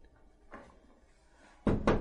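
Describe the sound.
Knocking on a door at night, in a narrated drama: a faint thud, then two loud, sharp knocks in quick succession near the end, alone without talk.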